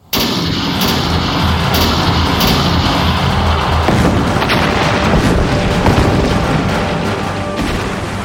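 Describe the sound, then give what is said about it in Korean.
Old naval cannons boom during a sea battle off Gwaneumpo: a loud, dense barrage of blasts and gunfire that rolls on without pause for the whole stretch. “내가 앞장설 터이니 장졸들은 물러서지 말고 돌격하라! 총통을 쏴라!”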